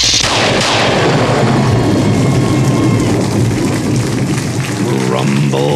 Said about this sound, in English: Rumble Kathoom is the sound of what happens when Etrigan's blood drips into a Pandora pit.